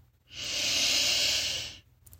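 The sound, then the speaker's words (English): A deep breath in during a guided meditation: one long, smooth inhalation lasting about a second and a half. It is a soft, airy hiss with no talk. “Then take a deep breath in.”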